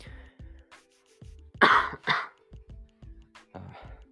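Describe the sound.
Coughing and throat clearing: two louder, harsh coughs stand out among several softer throaty bursts spread across the moment.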